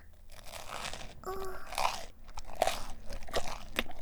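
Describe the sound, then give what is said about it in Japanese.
Someone bites and chews a big mouthful of crunchy food, making a fairly faint, uneven run of many crisp, moist crunches with no talk. “一口が大きいですよ。そんなにいっぺんに頬張ったら…”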